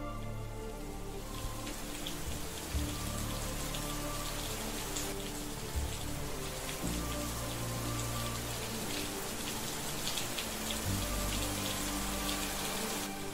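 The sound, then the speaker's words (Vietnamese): Heavy rain from a sudden thunderstorm pours onto a makeshift house, a dense, steady hiss of drumming drops that stays loud and unbroken throughout with no voices. “Cơn giông bất chợt ập đến, cảm giác như là căn nhà tạm của chị đang oằn mình trong cơn mưa giông, sẵn sàng đổ sập bất kỳ lúc nào.”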